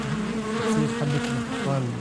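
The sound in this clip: Bees buzz around beehives in a dense, continuous drone that holds steady and fairly loud for the whole stretch, with overlapping wingbeat hums wavering slightly in pitch and no voices present.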